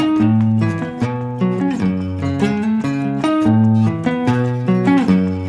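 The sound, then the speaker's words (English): An electric guitar plays a sus2 power chord riff in a driving, syncopated rhythm, with many loud, bright chords repeating steadily and no talk. “So now it's sus2 chords, neutral chords, not major, not minor. And if you play it with that iconic rhythm we all love, and that breaks the finger of many beginner guitarists, it sounds like this.”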